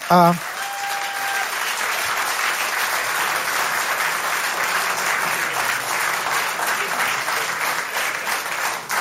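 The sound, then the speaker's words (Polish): Audience applause for award winners at a prize ceremony: dense, sustained clapping that holds at a steady, loud level throughout. “Państwa poprosimy o wielkie brawa dla laureatów.”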